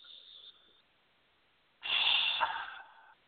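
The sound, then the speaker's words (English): A single deep breath, a soft airy rush lasting about a second, faint and heard alone. “please close your eyes, take a big deep breath.”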